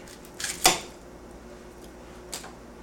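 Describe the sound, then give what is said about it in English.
A knife cuts the end off an onion on a cutting board: a few faint, sharp knocks and clicks of the blade striking the board, closely spaced at first, then one more light tap after a pause. “cut up your onion, you should cut on a cutting board, unless you don't have one, in which case you can just cut on the counter. I'm going to cut off this end here, I think.”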